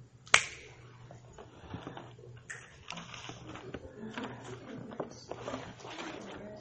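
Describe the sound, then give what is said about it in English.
A single crisp finger snap cracks sharply near the start, followed by faint low background noise. “You ever think about where the sound actually comes from when you snap?”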